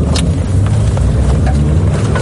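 A car drives along a war-zone road toward frontline positions as the driver presses harder on the gas. The engine and road noise form a loud, steady low rumble mixed with wind buffeting, with no voices.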